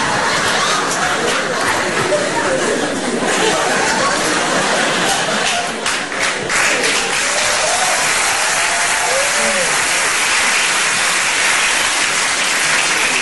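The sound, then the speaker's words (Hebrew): Applause from an audience at a funeral ceremony: dense, steady clapping that fills the whole clip without a break and stays loud from start to finish. “אין צורך בכפיים”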